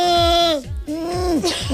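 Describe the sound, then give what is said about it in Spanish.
A singer's vocal warm-up that sounds like a bleating goat: a few wavering, nasal voiced cries, each sliding downward in pitch, with short breaks between them. “Sí, que parezco una cabra huérfana, pero es verdad, casi se calientan las cuerdas.”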